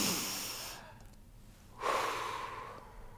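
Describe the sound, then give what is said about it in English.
A person takes one slow deep breath, heard quietly and alone: a long airy rush of breath, a short pause, then another breathy push of air that trails off. “take one breath with me”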